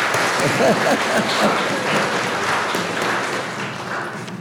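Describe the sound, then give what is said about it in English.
Audience applause for the Pandas, a team of young girls back from a tournament: dense, sustained clapping that holds steady and eases slightly toward the end. “Let's hear it for the Pandas there.”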